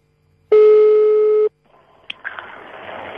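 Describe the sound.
A telephone ring tone while waiting for the call to be answered: one loud, steady beep lasting about a second, then quiet line hiss with a sharp click and a faint rustle.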